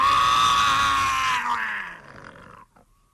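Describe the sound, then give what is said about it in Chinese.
A voice imitates a loud, bellowing roar, strong and harmonic at first, then weakening and trailing off over its last second. “大吼一声，是山摇地动，把武松在梦中惊醒啊。”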